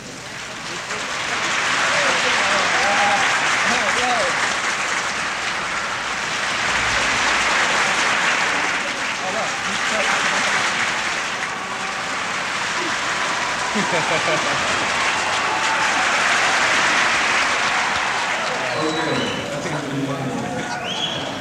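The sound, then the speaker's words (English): An audience claps as the applause is passed around the room, producing continuous hand-clapping that swells and fades in several broad waves, with a voice briefly heard over it. “you stop clapping and you start, and you can move the applause all the way around the room, thereby creating noise.”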